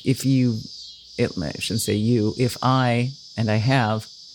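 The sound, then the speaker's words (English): Cicadas behind a house give a loud, steady, high buzz that runs unbroken through the whole clip while a person talks over it. “These cicadas are just rocking the house behind me.”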